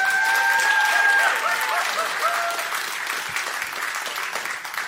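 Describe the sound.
Audience applause for a speaker being welcomed onstage at a church gathering: dense, steady clapping with some whistling near the start, easing slightly in volume over about five seconds.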